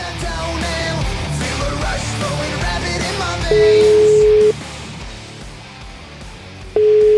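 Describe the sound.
An Italian telephone ringback tone plays while an outgoing call connects: two long, steady, mid-pitched beeps separated by a pause, loud over a continuous music bed.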